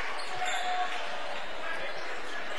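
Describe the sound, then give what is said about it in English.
Basketball dribbled up the court by a closely guarded player during a game, with a few irregular low thuds under steady crowd noise. “Into the front court on the right-handed dribble, being guarded closely”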